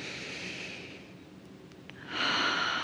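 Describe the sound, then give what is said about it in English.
A slow breath drawn in during a guided breathing exercise: a soft, airy hiss that stays quiet and then swells into a fuller inhale near the end. “Drawing in another breath.”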